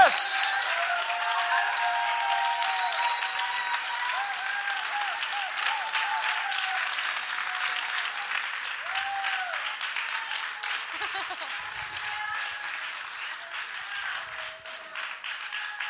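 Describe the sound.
An audience applauds and cheers during a bilingual French and English church service, sustained dense clapping with scattered shouts and whoops continuing for the full length, while a voice speaks over the crowd.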